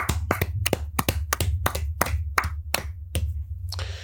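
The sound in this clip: Hands clapping as applause for a sports team at an awards segment: many sharp, crisp claps in a steady, fairly slow rhythm, with no talk over them.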